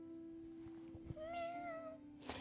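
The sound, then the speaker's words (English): A child's voice imitates a kitten meowing with soft, high, drawn-out mews that rise and fall. The meows are faint against a quiet, steady background hum. “Oh, are we a cat? Oh, a smaller, a kitten?”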